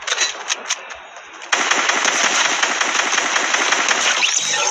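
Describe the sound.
Rapid automatic gunfire crackles in a shooting video game. A few scattered shots come first, then a sustained, dense rattle of fire runs loudly to the end.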